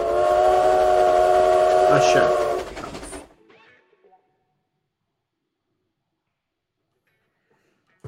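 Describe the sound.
A train whistle sounds a loud, sustained chord of several tones for about three seconds, then cuts off into a short rumbling tail before the rest falls almost silent.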